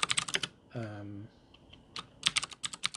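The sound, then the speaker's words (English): Typing on a computer keyboard in rapid bursts of clicks, broken by a short voiced hum before quick keystrokes resume. “I'm going to stop this here while I type.”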